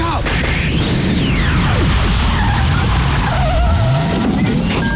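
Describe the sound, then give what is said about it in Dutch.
A time machine starting up roars loudly, with sweeping whooshes, rising and falling whines and a car-like skidding rumble that fill the moment without a break. “Start de tijdmachine, gek!”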